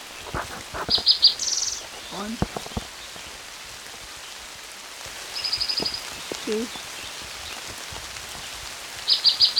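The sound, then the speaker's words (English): Heavy rain falling by a creek in Bannock County, Idaho, in June: a steady broad hiss of rainfall, with short, high bird chirps repeating over it. “It's raining pretty hard.”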